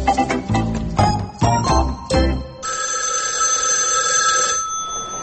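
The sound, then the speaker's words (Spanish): A telephone rings in a doctor's consulting room in a comedy sketch. Loud rhythmic jangling bursts come first, then a steady, bright electronic ring holds for about two seconds and cuts off. “La puerta. No, es el teléfono.”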